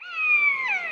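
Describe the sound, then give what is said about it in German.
A common buzzard gives a single drawn-out, cat-like mewing call in woodland, loud and clear with a tonal whine that slides slightly downward in pitch and holds steady to the end. “Dieses Miau-artige ist der Mäusebussard.”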